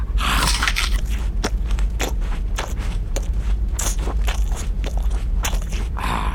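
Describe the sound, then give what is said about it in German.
A man bites and chews gingerbread along with its paper wrapping and string. Many sharp crunches mix with rustling scrapes in a loud, continuous stream, with no talking. “Ich riech noch mehr Gutes. Wir haben auch noch Pfefferkuchen. Her damit. Wüste Mann, isst sie einfach samt Papier und Bindfaden.”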